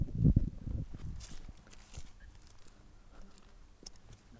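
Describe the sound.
Footsteps of people walking through a bushland park: a soft, steady run of steps, fuller at first and then fainter and quieter.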